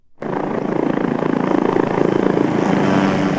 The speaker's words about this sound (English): That's the sound of military helicopters in South Korea taking off today as part of the first live fire drills of the new year there.